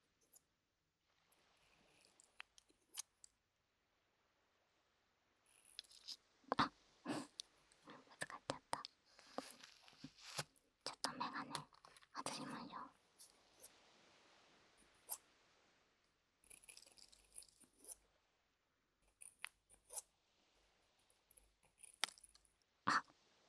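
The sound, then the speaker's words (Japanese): Scissors snip through human hair in quiet, crisp clicks that come in irregular clusters separated by pauses, with soft whispering in between. “髪の毛を切る音ってこれじゃないといい音しないんだよね。ちゃんと人間の髪の毛切らないと。”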